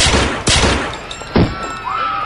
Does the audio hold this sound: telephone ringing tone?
no

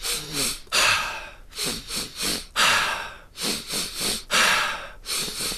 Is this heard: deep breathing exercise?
yes

